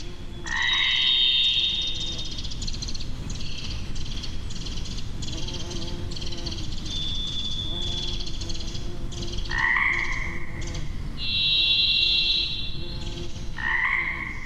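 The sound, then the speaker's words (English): Pacific chorus frogs croak in a dense, steady chorus in springtime wilderness. A varied thrush's long, steady whistled notes rise above them and repeat every few seconds. “We're hearing a varied thrush there, Pacific chorus frog.”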